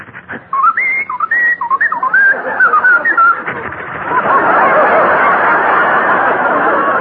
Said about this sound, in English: He whistled at me, so I followed him.